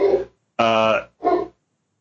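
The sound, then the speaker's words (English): A dog barks or yells at nothing, probably at a bunny outside. Three loud, throaty, voice-like bursts come in quick succession, the middle one longest, each followed by a short silence. “That's just my dog yelling at nothing. There's probably a bunny or something outside.”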